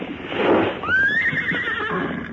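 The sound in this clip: A horse whinnies loudly in one long, high neighing call that wavers and trails off, following a burst of broad rustling noise.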